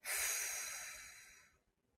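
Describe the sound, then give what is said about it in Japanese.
A single slow, deep exhale during a stretching exercise: a soft, airy hiss that starts strongly and gradually fades away over about a second and a half, then silence. “はい、もう一回吸って。吐きます。”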